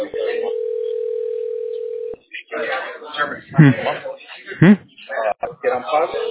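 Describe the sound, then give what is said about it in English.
A telephone dial tone holds steady at a single pitch for about two seconds, then stops as a voice begins speaking over the line. “It's dialing in right now.”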